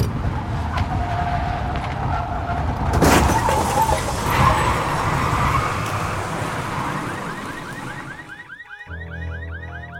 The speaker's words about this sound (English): Didn't spot the other car until it was too late. It was just sitting there in the middle of the road as I came barreling around the curve.